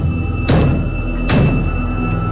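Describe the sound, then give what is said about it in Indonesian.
Loud knocking on a bedroom door, two heavy, dull thuds less than a second apart over a steady background hum, with no voices. “tiba-tiba ada yang mengetuk pintu kamarku dengan keras.”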